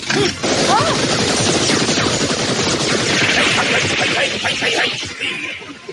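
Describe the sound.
Rapid machine-gun fire in a 1987 animated cartoon: a loud, dense barrage of overlapping shots and impacts that runs almost without a break and thins out near the end.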